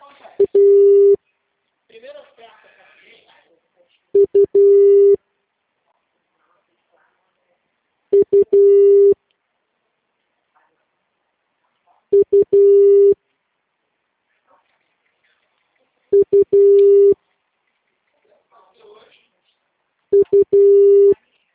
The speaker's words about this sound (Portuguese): Por favor, aguarde na linha enquanto transferimos sua ligação para um representante.